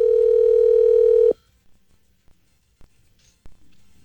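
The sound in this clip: A telephone call ringing on the line: one steady, mid-pitched electronic ring tone lasting just over a second, then cutting off into near silence broken by a few faint clicks.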